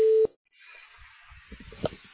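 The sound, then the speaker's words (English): A voicemail recording tone plays as one short, clear beep that stops abruptly. Faint line hiss and soft low rumbling follow it. “This is the mailbox of Mandy Ashworth. Please leave your message after the tone.”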